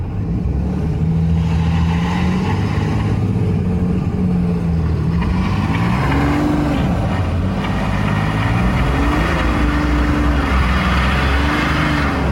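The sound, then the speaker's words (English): Diesel engine of a Ram pickup truck with a Cummins engine roaring loud and continuous during a burnout, its pitch climbing and dipping as the throttle is worked, with no voices. “That's diesel. I can totally hear the diesel.”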